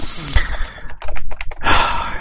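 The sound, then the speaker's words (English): Fast typing on a computer keyboard: a rapid burst of clacking keystrokes mid-clip, fairly loud against a steady background hiss. “You're typing like a madman right now”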